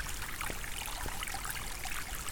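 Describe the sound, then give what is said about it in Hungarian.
Water flows down alongside a muddy road on a descent toward a settlement, a steady, fairly faint rushing and trickling wash that continues without a break. “aztán az út mentén folyik le a víz.”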